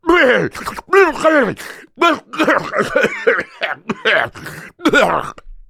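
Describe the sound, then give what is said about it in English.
A voice imitates a woman coughing: several hoarse, throaty coughs and throat-clearing bursts with voiced groaning, loud and uneven in rhythm. “And so she coughs”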